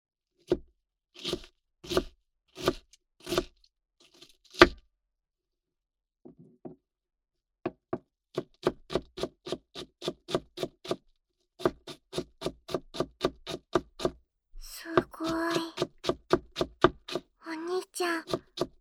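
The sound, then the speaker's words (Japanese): A knife chops an onion into small pieces on a board, making several runs of many quick, even, crisp taps separated by short pauses, fairly quiet against near silence. “お兄ちゃんは、玉ねぎを小さく切るの？”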